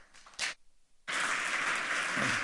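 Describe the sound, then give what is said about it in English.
Audience applause at a technology conference talk breaks out after a brief lull and carries on as a dense, steady clatter of clapping to the end. “Give a warm applause to Tim.”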